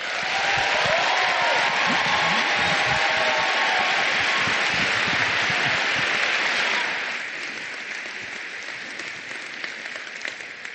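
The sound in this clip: Audience applause welcoming a speaker to the stage: dense, steady clapping from a large crowd that holds at full strength, then drops to a softer, thinning patter for the last few seconds.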